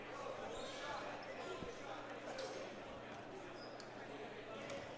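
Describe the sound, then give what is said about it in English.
A few faint basketball bounces sound as a player dribbles before a free throw at a boys' high school game, Exeter vs. Archbishop Carroll. The dull thumps are spaced apart over steady background noise. “Ware has it. A few dribbles. It's on the way. The second one's good.”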